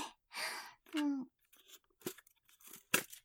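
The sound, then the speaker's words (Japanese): Aluminium foil is crinkled and crunched by hand in short, irregular bursts of crisp rustling. The sound stays fairly quiet throughout. “二つ目のアイテムは、アルミホイルなんやけど、これは、はらぺこちゃん”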